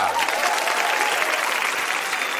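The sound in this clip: Applause for a left-footed veteran of the first Women's World Cup, held in China in 1988: dense, steady clapping that runs unbroken from start to end at an even, fairly loud level.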